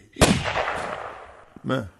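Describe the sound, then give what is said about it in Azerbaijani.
Gunshot: one sharp, loud crack with a decaying rumbling tail, followed by a shorter burst of sound. “Birdən inanılmaz bir vəziyyətdə güllə səsi gəldi.”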